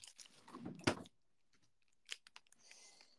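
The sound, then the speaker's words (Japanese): Packaging crinkles and faint mouth sounds as a mille crêpe cake is opened and eaten at home, a rustling burst with one sharp peak early on, then a quiet gap and a few small clicks and chewing sounds. “このさ、ミルクレアめっちゃうまくねえ。で、ミルクレア食べたら喋れなくなるかな。ミルクレア開けちゃおうかな。”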